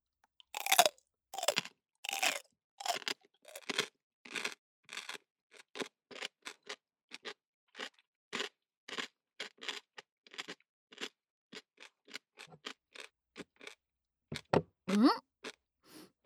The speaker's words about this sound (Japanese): さてお次は、お土産物だし味が分かりやすいうちにたくあんいっちゃおうか。切ってあるから爪楊枝で刺して食べて。